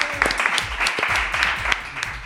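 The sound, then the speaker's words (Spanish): Applause rises from an audience welcoming a guest at a live Spanish-language event. Distinct sharp claps stand out from a busier background that stays lively for the whole moment. “¡Un aplauso para Miguel!”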